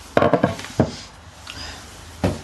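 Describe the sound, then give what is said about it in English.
Bacon is scattered over potatoes in an air fryer, giving a quick cluster of light knocks and rustles, then a pause and one final soft tap. “So now I'm just scattering the bacon on top of the potatoes because then the bacon fat will drip onto the potatoes and make them even more yummy.”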